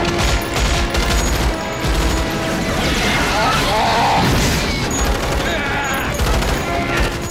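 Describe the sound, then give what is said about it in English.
A loud, unbroken gunfire salvo in a science-fiction audio drama, as soldiers fire handheld weapons and anti-bug artillery from a gun tower at charging bugs. Rapid shots, blasts and crashing impacts blur into one continuous barrage. “Ace fires a deadly salvo. From the gun tower, two Roughnecks batter away with anti-bug artillery.”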